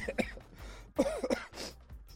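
Throat clearing while coughing up phlegm, heard as a few rough, voiced, grunting bursts of moderate loudness with short gaps between them.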